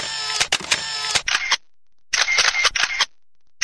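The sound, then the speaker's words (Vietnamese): An SLR camera shutter clicks as photos are taken, with many sharp, rapid clicks and mechanical whirring. The bursts of shots are separated by brief silences. “bước lên một gác nhỏ ở phía sân sau và bấm máy chụp một vài bức ảnh từ phía sau lưng Trang Điệp, xem ảnh trăng trước. Đèn flash chớp sáng”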